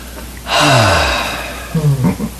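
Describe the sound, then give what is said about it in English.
A person takes a deep, audible breath: a voiced, gasp-like inhale lasting about a second, then a shorter breathy sound. “I take a breath, and it feels like this.”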